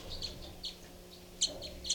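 Birds call with short, high chirps repeated several times at irregular intervals, faint over a low, steady hum.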